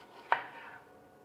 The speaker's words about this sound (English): I'm going to chop one apple to go with that.